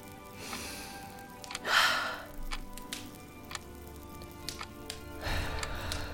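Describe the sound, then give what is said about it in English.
Deep breathing with two audible breaths, the first louder and more forceful and the second softer. Both sit over a quiet, steady background with occasional faint ticks. “Now, breathe.”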